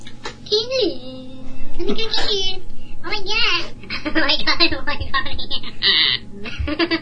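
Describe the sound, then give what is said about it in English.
A voice imitates a gnome toddler in a squeaky, high-pitched, childlike impression, babbling in quick bursts mixed with giggles and chuckles. “That's my impression of a gnome. What, a gnome toddler?”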